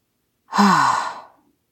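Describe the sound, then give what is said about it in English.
A long breath out during a grounding exercise: one voiced sigh of about a second, with a slightly falling hum, alone against silence and fading gently at the end. “Go ahead and breathe out.”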